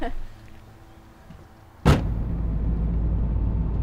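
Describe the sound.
A car gets underway: one sharp thud cuts in, then a louder, steady low rumble of driving continues to the end.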